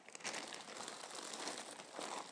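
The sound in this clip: Faint paper crinkling as a piece of paper is handled while items are taken out and sorted: continuous soft crackling and rustling that runs through the whole clip without a break.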